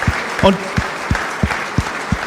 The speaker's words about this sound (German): Ein großer Applaus mal für das Team hinter dem Team.